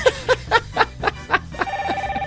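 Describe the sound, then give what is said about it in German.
A telephone rings in a quick series of loud, warbling electronic pulses, then settles into a steadier trilling tone, heard on its own. “Oh Gott! Unser Telefon klingelt.”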